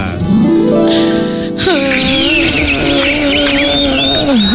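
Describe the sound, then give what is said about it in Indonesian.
Birds chirp cheerfully in loud, continuous, bright warbling calls. The calls open with an upward gliding whistle, then settle into wavering high tweets. “Burung berkicau dengan riang gembira, tapi Cinderella justru menangis.”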